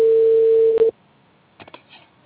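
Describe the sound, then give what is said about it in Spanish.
Telephone tone heard while placing a call: a single steady electronic tone lasting about a second that ends abruptly with a click, followed by a few faint clicks on the line. “Y estoy llamándole nuevamente a ver qué me dice.”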